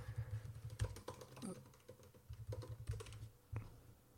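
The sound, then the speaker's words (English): Typing on a computer keyboard: rapid, irregular keystroke clicks in quick bursts with short pauses, over a low steady hum. “Type, go to Google. Okay. And type in Richard Kilty.”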